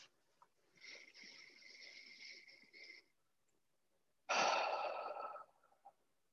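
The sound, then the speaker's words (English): A deep breath taken alone during a guided relaxation exercise: a long, soft inhale of about two seconds, a pause, then a shorter, louder exhale. “Let's take a deep breath.”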